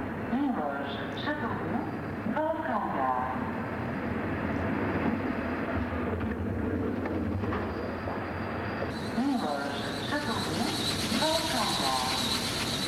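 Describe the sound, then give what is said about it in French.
A train arrives at a station platform, its steady, loud rumble and hiss of rolling wagons filling the whole stretch without a break. “Le train arrive.”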